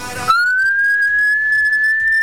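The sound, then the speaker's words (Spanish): A person whistles one long, clear, fairly loud note after a brief breathy burst, the pitch gliding up slightly at first and then holding steady to the end. “¿Silbar? Sí, no se me da mal.”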